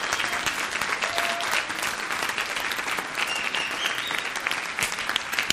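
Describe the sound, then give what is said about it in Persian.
Audience clapping, a steady, dense patter of many hands that continues evenly for several seconds with crisp individual claps poking through. “بعضی هنوز اینجوری دست میزنن.”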